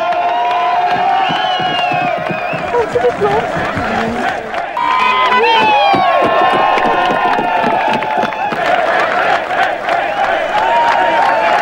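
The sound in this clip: Crowd cheering and shouting in East Germany at the fall of the Berlin Wall in November 1989. Many voices merge into a loud, dense, continuous roar of excited calls and whoops that never drops away.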